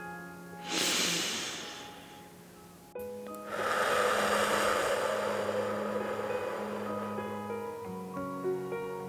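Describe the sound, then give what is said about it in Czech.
A deep breath drawn in through the nose, followed by a long, slow exhale through the mouth that trails on for several seconds. Both are soft and airy over quiet, sustained musical tones. “Hluboký nádech nosem a pomalý dlouhý výdech pusou. Nádech a výdech.”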